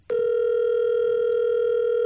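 A steady telephone dial tone on an outgoing call, one unbroken buzzing pitch sounding alone for about two seconds before cutting off.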